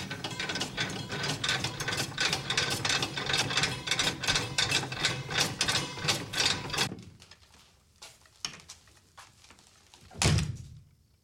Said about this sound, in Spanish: También fabricamos diversos tipos de máquinas para cortar carne y embutidos. Presten atención, la gracia de esta máquina consiste en esto.